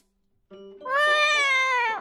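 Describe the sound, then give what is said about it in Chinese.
A white cat lets out a loud, long yowl at a pet hospital. A short lower cry opens it, then a strong, tonal wail holds steady for over a second and sags slightly at the end. “才推开门就听见一阵惊天地泣鬼神的长声猫笑。”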